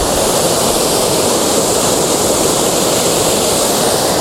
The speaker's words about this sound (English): at the minute it's just waterfall and that's it